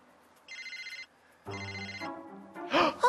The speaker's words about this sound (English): My cell phone's ringing!